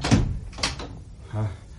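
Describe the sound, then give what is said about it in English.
A door is opened in a house at night, heard as a couple of sharp wooden clunks and rattles followed by a brief low thud. “Open the door, quickly.”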